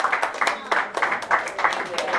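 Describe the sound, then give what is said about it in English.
A classroom group claps for a student who volunteered as co-teacher. Many quick, even claps fall in a steady rhythm over the whole stretch. “Can we clap for Aaliyah for volunteering to be my co-teacher?”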